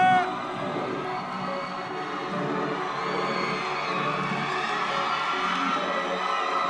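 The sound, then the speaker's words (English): A crowd at a live stage show cheering and whooping as the evening's host is welcomed on, a sustained, fairly loud roar of voices with shouted calls that holds steady and builds slightly toward the end. “please put your hands together”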